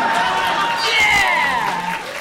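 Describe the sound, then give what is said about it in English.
An audience applauds with a dense, steady patter of many hands clapping, while a voice talks over it. “can I get a round of applause if anybody else imagineered this also?”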